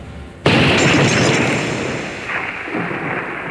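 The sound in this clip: A single loud gunshot cracks out suddenly, then trails into a long, rumbling, noisy decay that fades slowly over several seconds, with no voices heard.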